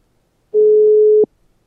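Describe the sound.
A telephone tone sounds while a caller phones a guest: one steady, mid-pitched beep lasting under a second that cuts off abruptly, with near silence before and after.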